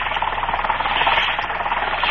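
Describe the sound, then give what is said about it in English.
A small boat's engine chugs as the boat moves slowly through thick fog toward an island off the Cape. The steady, rhythmic mid-pitched throbbing sounds alone and stays even throughout. “Moving cautiously, a small boat makes its way slowly toward one of the islands off the Cape.”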